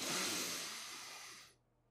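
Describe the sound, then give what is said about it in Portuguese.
A slow, deep breath is drawn in during a breathing-exercise demonstration, a soft, airy hiss that swells and then thins out over about one and a half seconds before stopping, leaving near silence. “Então, como que é? Inspirar em 5 minutos é assim.”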